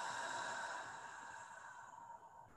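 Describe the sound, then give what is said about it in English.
A slow exhale after a deep breath in through the nose: a soft, steady breathy hiss that gradually thins and fades over a couple of seconds, faint and alone. “Deep breath in through the nose. And exhale.”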